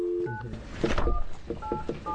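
A telephone being dialed to call a pharmacist: a few short, clear dual-tone keypad beeps separated by brief gaps, with faint background noise between them.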